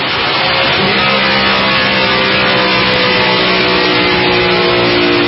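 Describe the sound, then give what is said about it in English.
A car engine revs in a loud, continuous, rough roar. Steady droning harmonics run through it without letting up. “Wind this bad boy down before we run out of fuel. Whew. You know, that's one thing about EVs, just don't sound like that, do they?”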